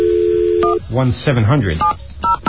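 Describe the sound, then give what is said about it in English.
Touch-tone telephone dialing: a steady dial tone gives way to a voice, then a few short, sharp DTMF beeps follow in quick succession as a number is keyed. “I can find that out pretty easily by dialing”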